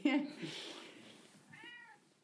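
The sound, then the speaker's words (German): A cat meows faintly, a short harmonic cry near the end, after a brief louder vocal sound at the start. “Meine Katze möchte mitmachen.”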